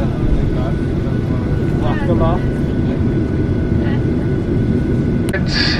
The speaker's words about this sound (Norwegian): Nå er vi klare for takeoff.